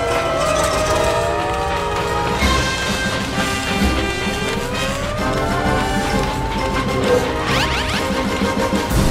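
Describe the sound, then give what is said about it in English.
Cartoon spaceship crash landing, cushioned by giant bouncy castles attached to the front bumper: a loud, continuous rumbling, clattering roar with sweeping whistle-like tones running through it and a sharper burst near the end. “Whew, nice landing, Mindy. Those giant bouncy castles you attached to the front bumper really helps to soften the landing.”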